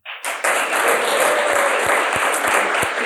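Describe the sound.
Applause from the audience of a live show in Kaunas, dense and steady clapping with several low thumps mixed in.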